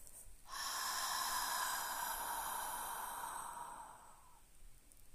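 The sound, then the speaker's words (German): A single long, slow exhale through an open mouth, as if fogging a mirror: a soft, steady breathy hiss that holds for about four seconds, then fades away into quiet. “Und dann fändest du wieder deine Atmung und atmest aus, als würdest du einen Spiegel anhauchen.”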